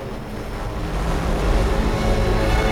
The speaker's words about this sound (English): Water flows down a tiered feature.